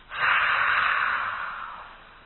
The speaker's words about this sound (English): You know how people clean their glasses sometimes? So with your mouth open, make that sound.